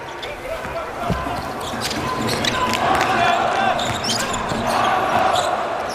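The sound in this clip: Basketball dribbled across half court by a 2.03-metre player during a game, with a few bounces under steady crowd noise and voices.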